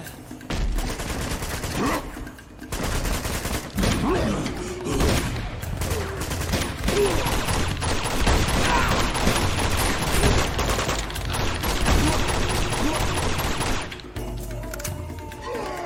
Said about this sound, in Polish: Tam był ten karabin taki.